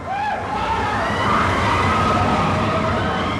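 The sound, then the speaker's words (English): A roller coaster ride at a theme park gives a steady, dense roar with high squealing tones drifting over it, loud and unbroken throughout. “Expedition Everest at Disney's Animal Kingdom Park sounds like a typical roller coaster.”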